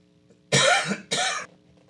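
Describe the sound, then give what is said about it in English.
Two harsh coughs from one person, loud and separated by a short gap, the second slightly shorter than the first, with near-silence before and after. “Somebody got me coughing today. But we need to continue, excuse me, to look at it.”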